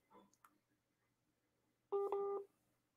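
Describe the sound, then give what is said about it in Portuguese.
Electronic call-connecting tones on a phone: a short, loud pair of steady beeps that comes in abruptly near the end, after a few faint clicks. Otherwise it is quiet. “tem alguém me ligando, deixa eu ver aqui.”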